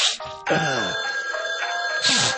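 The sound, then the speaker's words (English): A telephone rings with a steady, bright electronic tone that lasts through the whole short clip, with lower tonal sounds mixed in. “Answer the fucking phone. Pick it up.”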